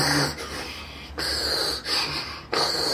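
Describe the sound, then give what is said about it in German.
A voice imitates heavy uphill breathing like a steam locomotive, forcing air through the teeth in several rough, rhythmic puffs. The wheezing chuffs are loud and harsh, each separated by a brief dip. “Damit auch dieses typische, ich gehe einen Berg rauf, das hört sich so an wie so eine Dampflok.”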